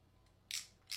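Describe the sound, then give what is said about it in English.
Cutters snipping the plastic separator out of a Cat6 network cable: two crisp, sharp snips in quick succession over a quiet background. “Now this is Cat6, so we're gonna wanna cut out this separator here. Let's try that.”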